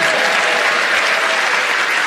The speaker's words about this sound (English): A round of applause.